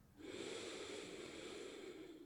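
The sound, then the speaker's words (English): A deeper breath is drawn in as one soft, sustained inhale with a breathy, slightly nasal hiss, quiet and steady for about two seconds. “And the moment that happens, take a deeper breath in.”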